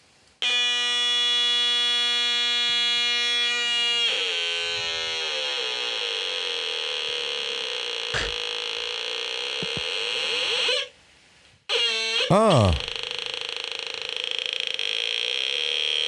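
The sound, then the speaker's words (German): Retro, Atari-like electronic tones from a small DIY sound gadget fitted with a resistor for pitch adjustment: a loud, buzzy sustained tone that shifts pitch partway, cuts out briefly, then returns with a quick warbling sweep. “der erste Sound, den es gemacht hat, das war schon fast Atari-Sound, würde ich sagen.”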